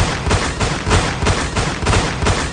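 Shotgun-style blasts fire in a rapid, steady series of many sharp, loud bursts with no voices.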